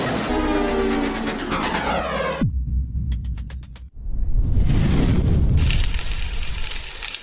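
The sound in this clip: A cartoonish crash-and-burn sound effect: a long falling whistle drops into a low rumble, then a quick run of sharp high ticks. A sudden hit follows and bursts into a loud, crackling, fiery roar that continues to the end.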